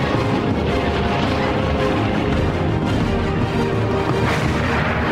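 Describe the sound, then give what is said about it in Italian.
Artillery barrage fire from some 300 British guns shelling enemy defences near the Qattara Depression, a dense, unbroken roar of overlapping blasts at steady loudness with no pauses. “le truppe inglesi, protette da un fuoco di sbarramento di 300 pezzi d'artiglieria, sfondano il sistema di difesa nemico.”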